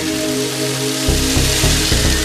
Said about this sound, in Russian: Палка дождя пошла.